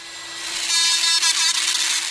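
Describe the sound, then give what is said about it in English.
A small power drill bores tiny holes into a 2-inch piece of walrus ivory tooth. It gives a loud, steady, high-pitched grinding whine with a few brief dips in level. “Dust flies through the air as he drills tiny holes into the 2-inch piece of ivory that he'll later fill in with baleen.”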